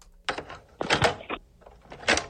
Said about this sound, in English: Here it is. Okay, here it is. Cassette tape.